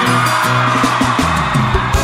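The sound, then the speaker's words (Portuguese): Concert crowd in João Pessoa shouting and cheering, a loud, continuous mass of yells and whoops with no break. “E aí, João Pessoa? Cadê o grito da minha galera aí?”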